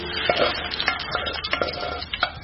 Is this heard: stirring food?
yes